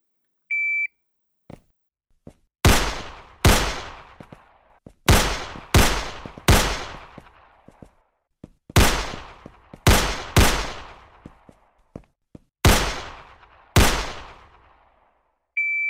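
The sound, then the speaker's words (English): Gunshots at a shooting range, five rounds per shooter fired while moving forward on timed center-target drills: ten sharp, loud reports in an uneven rhythm, each with a fast decay, bracketed by a short electronic beep at the start and end. “Center target, 15 seconds. That's all day long. Take your time. Get them in there. From the low ready. 5 rounds while moving forward. 15 seconds. Shooters ready. Stand by.”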